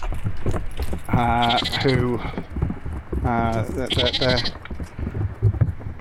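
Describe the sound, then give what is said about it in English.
Pygmy goats bleat in a few wavering, nasal calls amid ongoing human speech, with the bleats standing out in two clear bursts. “So we have five pygmy goats”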